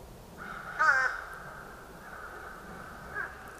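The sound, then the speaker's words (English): Crow calls from a fish crow and another crow species: a harsh, raspy caw near the start and a fainter call later, over a steady high-pitched background tone. “During the warm months, we have another species called fish crow. It sounds like this. See if you can pick out the two species in this recording.”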